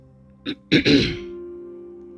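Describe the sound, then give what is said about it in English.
Someone clears their throat: a short faint catch, then a louder, rough, raspy double burst that trails off into a low voiced hum. “As the silence continued, Monio cleared his throat.”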